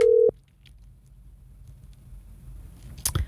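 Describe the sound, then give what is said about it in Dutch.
A telephone dialing a call for a live radio phone-in gives one brief, loud, steady tone at the start, followed by a faint low background hum. “Ik ga bellen.”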